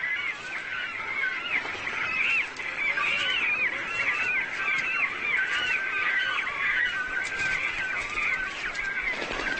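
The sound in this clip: Cormorants calling noisily in mid-spring as they compete for the best nest sites at the start of the breeding season, a continuous chorus of many overlapping harsh, honking calls.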